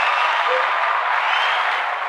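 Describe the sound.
Audience applause welcomes a guest onto a motorsport talk show: a dense, even wash of clapping that stays steady and loud throughout, then cuts off abruptly.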